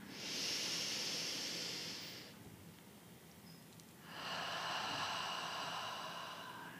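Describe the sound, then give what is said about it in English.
Slow breathing in a guided meditation: a long airy inhale through the nose, a pause, then a long hissing exhale through the mouth. Each breath lasts about two seconds and is heard alone. “So let's go ahead and start and breathe in through our nose, out through our mouth.”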